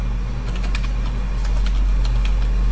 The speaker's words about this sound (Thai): ถ้าเราจะพิมพ์ยาวๆเราก็ต้องพิมพ์แล้วก็ เว้นวรรคข้อความไปเรื่อยๆ